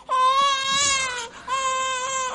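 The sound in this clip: A baby cries after being dropped, two sustained high-pitched wails separated by a short gasp, loud and tonal with a strained, wavering edge.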